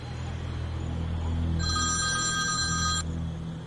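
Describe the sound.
A telephone ringing: one bright, high electronic ring lasting about a second and a half, heard over a steady low hum that carries on before and after it.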